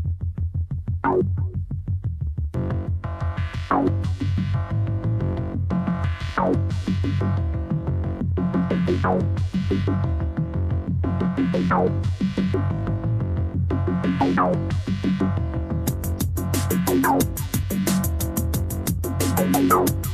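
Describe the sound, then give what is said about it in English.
An Analog Solutions Leipzig analog synthesizer plays a sequenced pattern: deep, beefy repeating notes with sweeping, plucky filter attacks over a steady low drone. Rapid high ticks join near the end. “Oh, so I was getting lost in music there. Or not in music, but, you know, in the synthesizer. That's the sound of the Analog Solutions Leipzig, which I didn't know about.”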